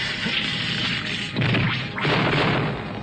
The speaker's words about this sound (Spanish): Romperé un pedazo de este glaciar para bloquear la entrada.